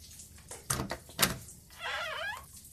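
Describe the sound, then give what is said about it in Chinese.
A door is opened quietly: two sharp clicks come first, then a longer sliding squeak as it moves. “把门打开。”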